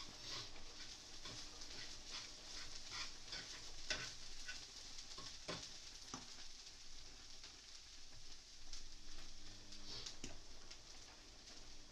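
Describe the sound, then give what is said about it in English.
Tuna fries in a hot pan with a faint, steady sizzle, broken by soft scraping strokes as it is stirred to stop it sticking. “Trying to make sure this tuna doesn't stick to the pan as well. It's getting a bit hot at the moment.”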